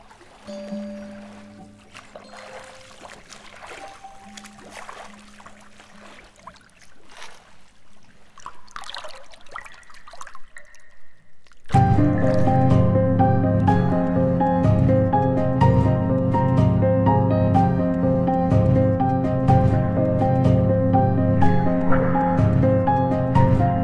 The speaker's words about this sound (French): Un homme trace son chemin à travers l'eau bleue. Ondulation à la racine des cheveux. Ondulation à la surface de l'eau. Aller et retour. Et de nouveau aller et retour.